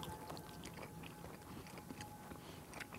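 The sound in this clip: Faint chewing of salami during a picnic tasting, many soft, moist bites and mouth sounds in a steady stream with no talking.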